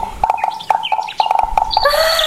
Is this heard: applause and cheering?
no